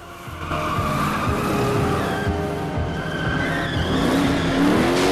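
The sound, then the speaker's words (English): A car reverses at speed and swerves around a digger to ram. Its engine roars loudly and steadily while tires squeal, and the sound carries on without a break and without voices. “Christine reverses at speed, drives around the other side of the digger, then tries to ram Lee that way.”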